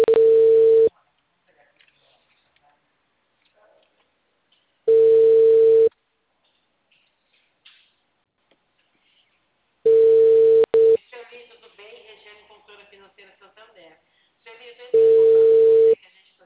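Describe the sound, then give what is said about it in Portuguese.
Telephone ringback tone while someone calls a person again: four steady beeps, each about one second long and spaced about five seconds apart, with a faint voice speaking in one of the gaps. “Vou tentar ligar para ela de novo.”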